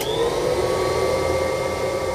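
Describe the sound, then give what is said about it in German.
A clown-invention vacuum cleaner with a red wig on its handle runs steadily, a loud continuous motor roar topped by a thin high whine, without any voices. “Ein Staubsauger mit einer roten Perücke auf dem Griff?”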